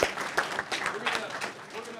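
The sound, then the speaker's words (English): An audience gives itself a round of applause: a few separate bursts of hand claps, fairly faint, with voices mixed in among the claps. “Let's give ourselves a hand for that. That's a big deal.”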